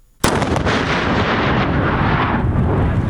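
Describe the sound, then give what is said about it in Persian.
A newly found landmine is detonated on the Urozgan–Kandahar highway: one sudden, loud blast that swells into a long, heavy roaring rumble, easing only slightly toward the end. “حاجی محمد ماین تازه کشف شده در شاهرای ارزگان کندهار را منفجر ساخت.”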